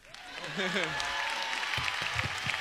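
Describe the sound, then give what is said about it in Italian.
Audience applause at a television talent show, a steady wash of clapping that rises quickly and holds, with a voice speaking over the start. “L'Extra Factor, fate un altro grandissimo applauso”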